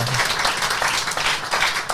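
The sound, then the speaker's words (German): A brief burst of applause in a show: dense, rapid clapping from an audience lasting about two seconds. “Oh, ist Applaus. Das ist Applaus, jetzt, ja, ist richtig.”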